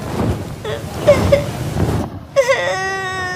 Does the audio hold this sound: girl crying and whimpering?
yes